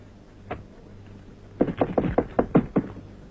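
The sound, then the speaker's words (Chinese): Knuckles rapping on a door: a single knock, a short pause, then a quick even run of several firm knocks. “我跟你说过多少次了，进来以前先要敲门。”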